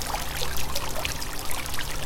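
Splashing water from fountains in the gardens of a historic mission, San Juan Capistrano, California: a steady, continuous trickling and plashing texture with no voices.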